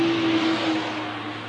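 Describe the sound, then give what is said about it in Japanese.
A car driving along a road gives a steady, loud engine and road drone with a low hum running throughout, easing slightly toward the end. “だって彼らの標的のドモンさんの車は今私たちの車の目の前を走行中で、まだ橋にはついてないんだから。”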